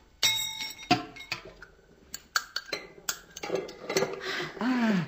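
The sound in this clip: A box lid being pried open with a chisel and a pestle: sharp metallic clinks, taps and knocks in an irregular run, growing busier toward the end.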